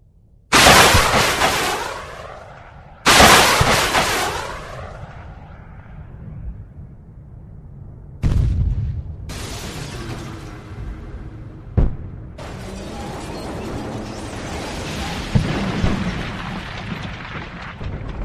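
Heavy gunfire booms out as shots are fired at a dinosaur in a dramatized scene: a few loud, sharp blasts, each trailing a long rumbling decay.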